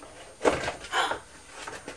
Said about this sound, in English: And what's inside this shed? Shut it. Shut it? Well, open it and see. Open and see.